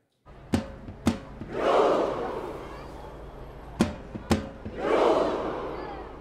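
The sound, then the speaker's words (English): Tens of thousands of football fans in Oslo cheer to welcome Norway's national team home, with two big swells of roaring crowd noise, each preceded by a pair of sharp, loud bangs. “One last time, tens of thousands of fans gathering in Oslo to welcome the team home.”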